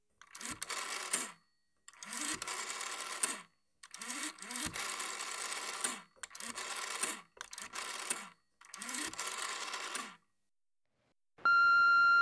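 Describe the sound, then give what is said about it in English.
Dialing an emergency telephone number: several buzzing mechanical bursts separated by short pauses, each opening with a low thump, followed by a steady electronic tone. “I'm going to dial the emergency number for a little bit of help.”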